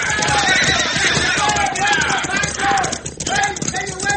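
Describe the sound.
Hoofbeats of mounted horses galloping away, a dense, continuous drumming clatter that stays loud throughout, with voices talking over it.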